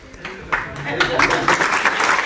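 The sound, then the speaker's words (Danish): Audience clapping in a hall at a gala, a steady patter of many hands that runs throughout beneath a talking voice. “Og så bliver der klappet.”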